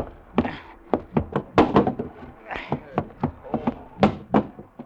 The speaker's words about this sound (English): open the hatch to the cabin.